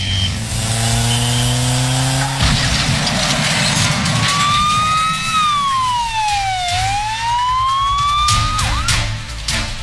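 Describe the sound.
A police siren wails loudly and continuously, its pitch sweeping up and down in slow cycles over a steady rumble of traffic.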